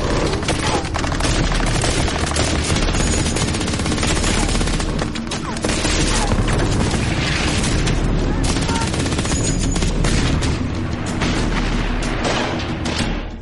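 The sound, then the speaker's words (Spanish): Heavy gunfire from bunkers shooting onto a Normandy beach during the D-Day landing, a loud, dense, unbroken barrage of rapid shots and booms that fills the whole stretch. “desde los búnkeres disparaban hacia la playa impidiendo que pudiéramos avanzar.”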